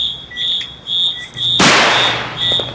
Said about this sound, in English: It's Chinese fireworks.